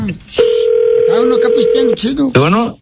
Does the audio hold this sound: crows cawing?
no